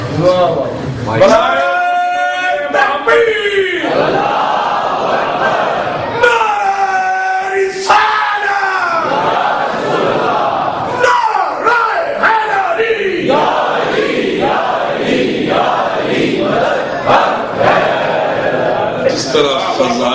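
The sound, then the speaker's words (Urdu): A crowd at a religious majlis shouts slogans in loud unison, with many repeated chanted bursts alternating with a lead voice throughout. “حدیث کے اوپر بھی نعرہ لگ گیا تو بڑے محمد والے عام طور پر لوگ مولویوں کی مجلس میں نعرہ لگانا سمجھتے ہیں شاید یہ شاید نشان ہے۔”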